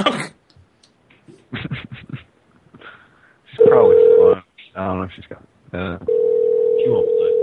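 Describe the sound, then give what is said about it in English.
A telephone call being placed: two long, steady mid-pitched phone tones sound between stretches of people talking and short bursts of noise. “I'm calling her back.”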